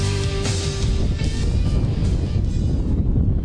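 Wind buffeting a microphone outdoors at a high school football game: a loud, steady low rumble that fills the whole clip without letup, with no talking.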